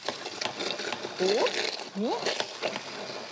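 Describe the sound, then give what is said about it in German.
A blender motor purees frozen berries, giving a steady whirring, buzzing drone that runs through the whole stretch at a fairly even level. “Und das hier püriere ich einmal.”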